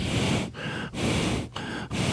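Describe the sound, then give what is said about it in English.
Heavy breathing, loud and rasping, with several forceful breaths in quick alternation, each a dense rush of air separated by brief pauses. “Don't breathe heavy. It makes me feel bad.”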